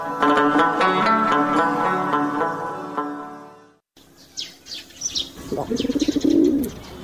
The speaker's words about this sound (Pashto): ته دیوال په سر کوترې، ته څنګه غومبر وکې؟